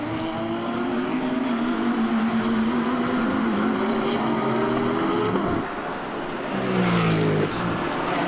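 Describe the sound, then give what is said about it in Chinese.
Race car engines roar around a circuit as cars battle for position, a loud, sustained high-pitched engine drone that shifts in pitch, dips briefly, then surges again. “程宗夫现在已经超越了将近两台赛车嘛”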